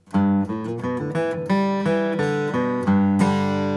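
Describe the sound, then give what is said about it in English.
A bluegrass G run on acoustic guitar, a quick string of bright picked notes in close succession with ringing overtones, played alone with no talk. “But Doc had a unique approach to the G-Run because he would use it in an ascending fashion and then quickly follow it up in a descending pattern. That would sound like this.”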